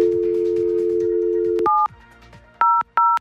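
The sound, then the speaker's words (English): A steady telephone dial tone holds for over a second before three touch-tone keypad beeps dial an emergency number, the first alone, then two quick ones in close succession. “When you dial those three important numbers, you expect help to arrive as quickly as possible.”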